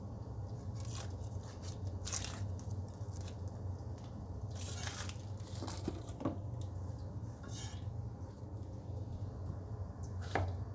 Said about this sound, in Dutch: Ik snij ze nou gewoon in dunne halve ringen.